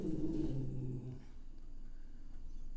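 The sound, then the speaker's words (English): A dog growls in a low, rough rumble that holds for about a second, then fades into quiet hiss. “The dog is growling at nothing.”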